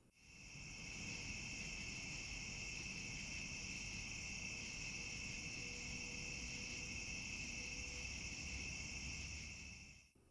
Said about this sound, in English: Let me just start by taking the microphone outside so you can hear for a moment the beautiful song of the night insects.